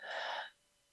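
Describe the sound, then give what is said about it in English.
One deep breath released through the mouth during a guided breathing exercise: a soft, breathy rush of air lasting about half a second, then quiet. “blowing out with your mouth, and one more deep breath in and releasing.”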